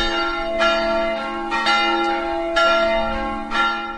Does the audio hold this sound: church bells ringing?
yes